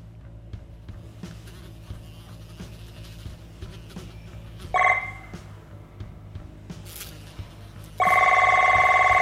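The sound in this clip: An electronic telephone ring sounds in two bursts: a short one midway, then a longer one that keeps going to the end. Both play over a low hum and faint scattered clicks, with no answer heard.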